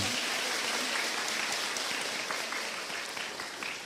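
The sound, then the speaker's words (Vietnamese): Applause from an audience at a Buddhist talk and exchange event, soft and fairly distant-sounding in level, a steady patter of many hands that gradually thins and fades toward the end. “Hãy dâng cao một tràng vỗ tay nữa nào.”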